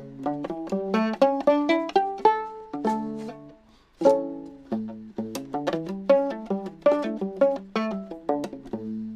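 Octave fiddle played alone, its bowed notes sounding an octave lower than a normal fiddle. It runs through quick scale-like phrases of separate notes, with one brief pause midway.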